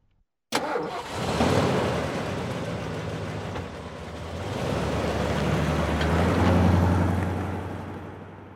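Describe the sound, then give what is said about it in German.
A car engine starts abruptly after a moment of silence and the car drives off at once, heading for the motorway. The engine runs steadily, then swells louder in the second half before easing off slightly at the end. “Sie steigt ein und Max fährt sofort los.”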